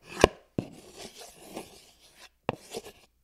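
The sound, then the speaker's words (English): A spoon scraping against the side of a bowl of macaroni salad with mayonnaise, sliced green olives and canned shrimp: a few sharp clicks and rasping scrapes with short pauses between them, fairly faint. “Scrape goes a spoon against the side of the bowl.”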